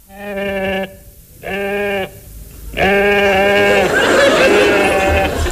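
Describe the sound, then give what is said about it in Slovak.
A ram bleats three times, each a long, clear, nasal call separated by short pauses. A rougher, noisier sound follows the third bleat. “Ten diviak tuším blačí. Čo si to? Veď je to barán.”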